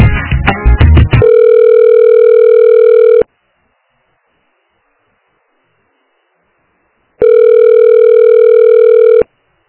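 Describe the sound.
A telephone line tone sounds while another office extension is tried: a burst of rapid tones gives way to a steady, loud mid-pitched tone of about two seconds, then silence, then an identical two-second tone.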